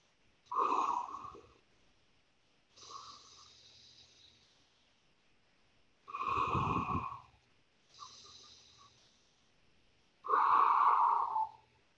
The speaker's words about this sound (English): Now you're going to pull your nose down like that and breathe in that way.